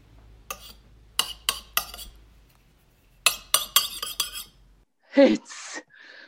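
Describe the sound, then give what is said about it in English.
A knife scrapes and chips disfiguring enamel off an object in two quiet clusters of short, crisp scraping strokes with faint metallic clinks, separated by a brief pause. “Hand me your knife, sir. Here. I'll peel off some of this disfiguring enamel.”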